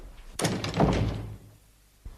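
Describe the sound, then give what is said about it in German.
A door slams shut with a loud, sharp bang and a short ringing decay, followed near the end by a softer, brief thud. “Naus! Tür zu.”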